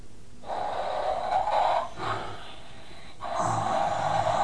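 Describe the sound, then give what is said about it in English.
A child imitates an elephant snoring with three drawn-out, breathy, rasping snorts, each fairly loud and steady, separated by brief pauses. “Are you snoring just like that elephant?”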